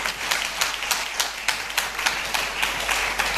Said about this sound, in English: Yeah, you see the way the clapping is coming.